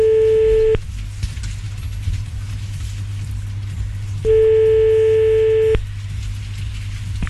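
Telephone ringing tone while placing a call: two long, steady, evenly pitched tones separated by a few seconds of silence, over a constant low hum.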